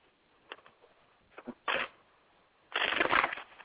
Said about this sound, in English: What's all that rustling? Who's playing with papers? No, I was actually shuffling.